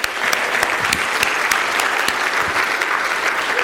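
Audience applause congratulating children after a Flag Weekend event: dense, steady clapping from a crowd that continues evenly throughout, with no talk over it.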